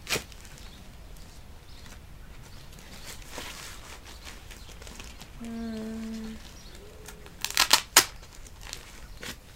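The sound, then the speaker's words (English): Diaper tape fastening on a baby, heard as a few sharp ripping bursts near the end over faint, low rustling. “pretty cute in a diaper, anyways. All right, one more tape.”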